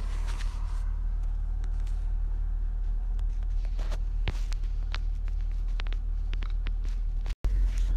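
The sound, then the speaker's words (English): A vehicle rolls slowly across a bumpy pasture, dragging a 200-gallon water tank and weed sprayer: a steady low engine rumble with scattered clicks and rattles throughout, cut by a brief dropout near the end. “I'm driving out across my pasture really slow. It's pretty bumpy. Plus, I got a 200 gallon tank of water”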